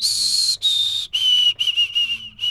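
A person whistles an imitation of white-throated sparrow song. Two long, clear, high notes are followed by a quicker string of shorter whistled notes, the pitch stepping down slightly, with brief gaps between phrases.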